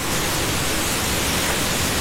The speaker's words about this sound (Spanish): Las olas de San Andrés Islas.